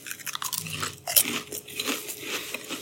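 Crisp crunching and chewing of a sour cream and ranch flavoured snack, many close, irregular crunches with one louder bite near the middle, and no talking.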